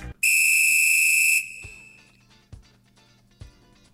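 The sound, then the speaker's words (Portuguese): A referee's whistle starts a football match with one long, steady, shrill blast of about a second. A few soft low thumps follow afterwards. “Agora sim, tudo pronto para a bola rolar, apita o árbitro e começa o arquibancada.”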